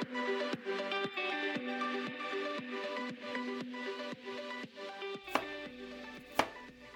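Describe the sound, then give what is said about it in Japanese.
Cooking in a home kitchen sounds as many brisk, evenly spaced knife chops on a board, with a couple of sharper knocks near the end. “お母さんはキッチンで料理を作っています。今日はごちそうですね。”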